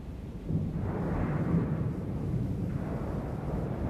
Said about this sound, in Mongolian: алс тэртегийн хар ууланд нүсэр хүнд аянга нүржигнэн дугуурна.